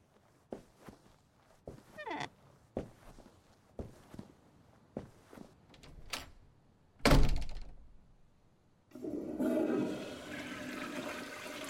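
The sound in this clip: A toilet flush in a bathroom, a rushing surge of water after a series of soft thuds and footsteps and one loud, heavy thump, with no talking.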